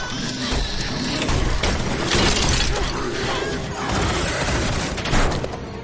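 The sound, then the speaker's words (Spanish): Glass shattering as a zombie smashes a van's front windscreen in a post-apocalyptic thriller: loud crashing and crunching impacts with dull thuds, noisy and dense throughout, swelling in a few heavier surges. “Ahora llega otro y rompe la luna frontal de la furgoneta.”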